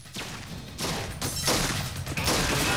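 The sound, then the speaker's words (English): Gunfire from two handguns in a film action scene, in which a man kicks in glass doors. A few sharp, crashing bursts stand out over a rough, noisy background. “Piper kicks the glass doors in and enters, firing two handguns as he moves.”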